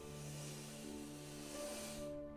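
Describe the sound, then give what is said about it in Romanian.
A slow, deep breath drawn in through the nose, a soft, airy hiss held evenly for about two seconds before it stops suddenly. “Și te invit să inspiri aer adânc pe nas”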